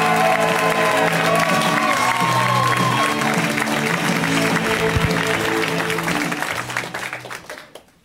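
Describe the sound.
Audience applause and cheering welcoming a comedian onto a stage. Dense, steady clapping runs over a musical tune and fades out at the end.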